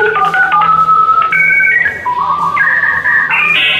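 A mobile phone call attempt fails with no network, sounding a loud run of electronic tones. The tones step between different pitches over a few seconds and end on the highest, with no talking.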